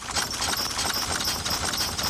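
Hooves of a horse-drawn carriage clip-clop in a quick, steady rhythm, mixed with a rough, gritty rolling noise throughout, fairly quiet and without voices.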